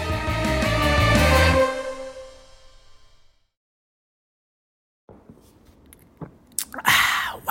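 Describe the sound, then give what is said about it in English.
Chewing chocolate, with moist mouth sounds and a few louder crunchy bites near the end, heard after a silent pause. A sustained tonal sound fades out at the start. “Now it's time to celebrate finding the treasure by eating a bunch more chocolate.”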